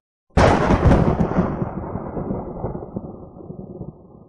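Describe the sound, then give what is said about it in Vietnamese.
A thunder sound effect opens with a sudden loud crack, then rolls into a long, deep rumble that slowly weakens over several seconds. No voices are heard. “Nó phát ra một tiếng sấm đáng sợ.”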